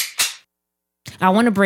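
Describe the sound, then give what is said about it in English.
Fireworks popping around a neighborhood on the Fourth of July: a couple of sharp, loud cracks in quick succession, then a short silence before a voice starts talking. “if you hear anything, don't be ducking and weaving. That's just fireworks going on in the neighborhood.”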